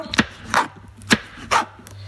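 Vegetables being chopped with a knife: a few sharp, separate strikes land at an uneven, unhurried pace, with quiet pauses between them.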